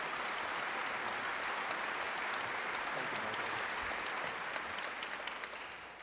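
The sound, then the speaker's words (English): Audience applause after a musical arrangement at a Christmas concert: steady, dense clapping with no talk, holding even for most of the stretch and thinning slightly at the end. “And how about another hand? That was a beautiful arrangement by David Deacon Joyner.”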